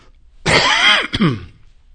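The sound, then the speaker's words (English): Throat clearing and a cough from someone with a scratchy throat and a nasty cough: one loud, harsh rasp, then a brief second burst, heard alone without talk. “you'll have to excuse me. I've got a scratchy throat and a nasty cough.”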